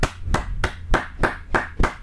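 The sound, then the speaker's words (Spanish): A host claps his hands alone in sharp, evenly spaced claps, roughly three per second, each one crisp and loud against a quiet background. “El conductor aplaudiendo al productor, ¿no?”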